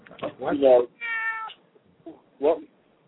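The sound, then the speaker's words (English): A male cat meows several times in quick succession. The cries are loud and drawn-out with short gaps between them, and a final shorter meow closes the series. “Was your cat meowing at me? He's debating you.”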